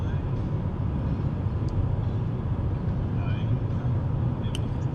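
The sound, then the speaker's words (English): Dense, even rumble of road noise from inside a car being driven, continuous and unchanging, with faint higher ticks now and then. “I'm doing pretty good. I'm driving. I'm doing what I love.”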